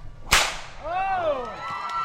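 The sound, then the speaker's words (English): A big whip gives one loud, sharp crack near the start, followed by a quieter trailing tonal sound that wavers and fades. “Let us test out the big whip,”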